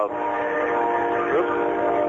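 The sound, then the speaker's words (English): A freight train passing about a block away sounds its horn: one sustained, steady multi-tone blast held at an even level for the whole stretch. “did I just hear a train go by? Yeah, the train is going by. There's a train about a block from my house. Fantastic. Sounds beautiful, by the way. Yeah. It's a freight train.”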